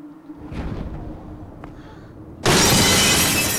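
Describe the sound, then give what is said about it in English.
Glass shatters with a sudden loud crash as a body lands on a glass roof. Low, muffled rumbling precedes it, and the bright, hissing spray of breaking glass continues to the end. “She lands on a glass roof below.”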